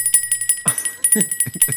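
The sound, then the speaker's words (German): A small bell being shaken gives many quick, bright rings in an uneven rhythm, with a thin high tone sustained between the strikes. “Ich habe eine Glocke gekauft.”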